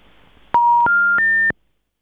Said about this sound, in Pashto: ټلیفون قطع شوی دی